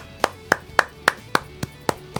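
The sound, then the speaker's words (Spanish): A woman claps her hands: eight sharp, evenly spaced claps in a steady rhythm, clear and alone with no other sound. “¿Y por qué aplaude? Ella es de Concepción del Uruguay.”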